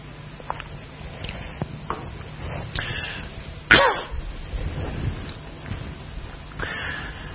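Coughing and throat clearing from a tickle in the throat: one sharp, loud cough burst midway, set against a quieter, rustling background.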